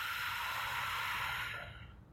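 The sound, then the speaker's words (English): Deep breath drawn in and blown out: a long, steady airy rush that holds for over a second and then fades away, with no talk. “shall we take a deep breath in? Blow it out.”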